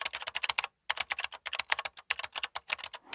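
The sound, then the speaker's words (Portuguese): Rapid typing on a computer keyboard: a dense run of many crisp key clicks in quick bursts, broken by one short pause, fairly faint and with no voices. “E a resposta correta é... alguém a escrever no teclado de um computador.”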